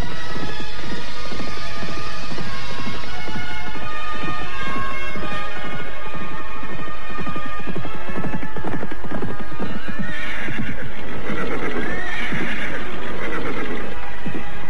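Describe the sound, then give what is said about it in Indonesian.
Horses being ridden as night falls: steady, rhythmic hoof clip-clops run throughout, and loud neighs and whinnies rise over the hoofbeats later on. “Setelah hampir setengah harian mereka berkuda, malam pun tiba.”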